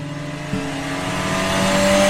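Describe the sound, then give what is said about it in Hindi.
A car engine runs as the vehicle pulls away, a steady low hum that grows gradually louder over about two seconds. “सभी खुशी खुशी car में बैठ के घर को चल पड़े”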